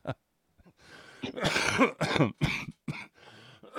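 Throat clearing and coughing from a tickle at the back of the throat: a series of harsh, rasping bursts of uneven length, fairly loud and heard alone without talk.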